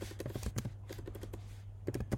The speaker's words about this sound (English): If that me typing there is really, really loud, I'm sorry.